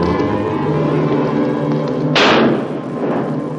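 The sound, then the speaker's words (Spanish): A single gunshot from a gunman crouched on a rock in a 1956 western film: a sharp, loud crack that dies away quickly over a steady tonal background. “Uno de ellos sube a una roca. Se agacha y dispara al sombrero de Ethan.”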